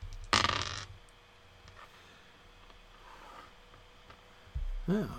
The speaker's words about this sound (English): let me go over and see here on Twitch how many people are here so I can know which dice to roll